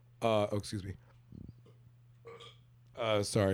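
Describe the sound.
A short, low, rattling burp sits between stretches of people talking, brief and fairly quiet compared with the surrounding voices.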